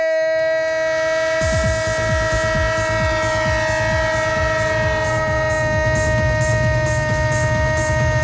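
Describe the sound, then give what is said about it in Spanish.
A train horn sounds as a steady chord through the whole clip. After about a second and a half, a rhythmic clatter of rolling rail wheels joins beneath it and carries on loudly, with no voices. “El tren de Radio Estadio. El tren de Onda Cero, claro que sí.”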